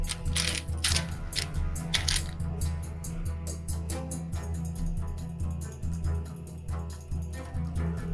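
Dice rolled for a stealth check in a tabletop role-playing game, giving many rapid clicks and clattering knocks over a steady low hum, with no talk.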